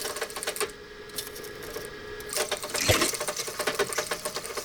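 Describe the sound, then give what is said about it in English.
A very old microfilm machine with a cassette loaded runs with a fast, rattling mechanical whir and clicking. It holds steady at first and grows busier and louder partway through. “Once they found the right cassette, they put it into this incredibly old microfilm machine.”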